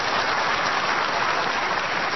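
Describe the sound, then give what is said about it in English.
Audience clapping: a thick, continuous wash of applause at a steady, fairly loud level from start to finish, with no pauses or voices standing out. “Oh, look, they're clapping so good.”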